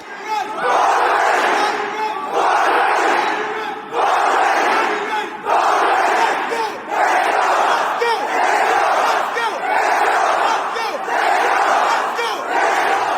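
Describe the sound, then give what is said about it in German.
A large crowd of about a thousand young people, mostly around 25, chants or shouts together in loud, sustained bursts. The bursts repeat in a steady rhythm with short dips between them, a dense mass of voices throughout. “rechts und links stehen gefühlt 1000 Menschen und nicht irgendwelche Menschen, sondern Menschen, die so 25 Jahre alt sind.”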